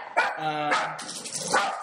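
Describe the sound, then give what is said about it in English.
A pet dog barks a few times in quick succession, short sharp barks with a brief whining tone between them. “That's my dog.”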